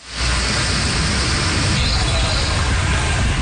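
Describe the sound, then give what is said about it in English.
Cars drive through flooded streets in Shanghai after a typhoon made landfall on China's east coast. A steady, dense rushing wash of water and tyres holds at the same loudness for the whole stretch. “cars drive through flooded streets after Typhoon Dolphin makes landfall on China's east coast.”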